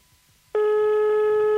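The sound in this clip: An outgoing telephone call produces a steady, loud electronic tone that cuts in abruptly after a short quiet moment and holds without a break until the end.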